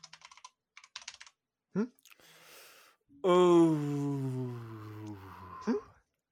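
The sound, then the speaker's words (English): Computer keyboard typing comes in a few short, quick bursts of crisp clicks, then stops, and a long, drawn-out vocal sound follows. “I'm going to type it in and see what you say.”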